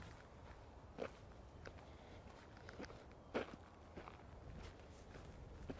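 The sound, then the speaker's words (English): Footsteps of a person walking outdoors, faint and steady, with several soft irregular steps and a few sharper scuffs over a quiet background hiss. “So I'm going to carry on walking, I think.”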